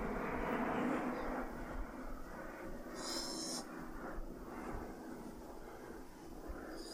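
An aircraft flies over near an airport, producing a low, broad rumble that is strongest at the start and slowly eases off.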